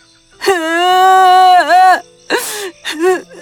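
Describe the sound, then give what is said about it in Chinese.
A child crying, a boy lying on the grass in a forest: a long, loud, sustained wail with wavering pitch, then shorter broken sobs separated by catching breaths. “乔蒂难过，躺在草地上哭了起来。”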